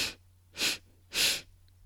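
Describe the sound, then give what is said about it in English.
Quick nasal inhales of a bunny-breath breathing exercise: a few short, soft, airy sniffs in a steady rhythm, heard alone with faint background hum. “Inhale. Exhale. Last bunny breath. Ready? Inhale.”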